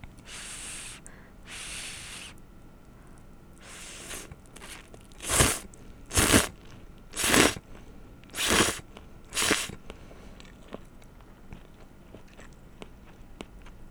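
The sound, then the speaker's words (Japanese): Crunchy, breathy chewing as someone accidentally chews on hair while eating spicy food. A few soft bites come first, then five louder crunches in a steady rhythm, quiet overall with no talk. “髪の毛食べちゃう。”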